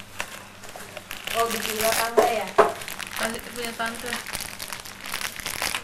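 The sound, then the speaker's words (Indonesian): Plastic wrapping crinkles and rustles unevenly as it is opened from a snakes-and-ladders board game, with people talking over it. “Bu, ininya bukain yang di plastik. Yang di plastik bukain.”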